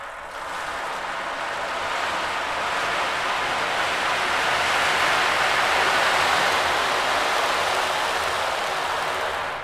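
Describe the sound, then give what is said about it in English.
Dense, steady hiss of a rain drum played in tube mode with no transformer, a continuous wash of patter that swells slightly through the middle and holds for about ten seconds, with no voices. “This is a rain drum. Tube mode, no transformer.”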